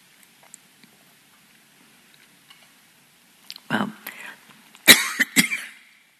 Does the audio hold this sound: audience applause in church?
no